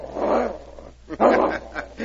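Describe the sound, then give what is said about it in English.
A dog growls low and rough in two bursts separated by a short pause, the second slightly longer and louder, with no voices over it. “He not like fox smell, eh? It isn't the fox scent he's growling at.”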